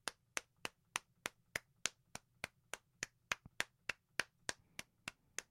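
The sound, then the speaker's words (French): Applause at a live stage show, sounding as many sharp, crisp hand claps in a steady, even rhythm, faint in level, with no voices over them. “C'est vraiment, là, une bonne main d'applaudissements. Bravo.”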